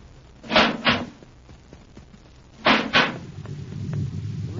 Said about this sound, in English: Quick now, open the inner hatch.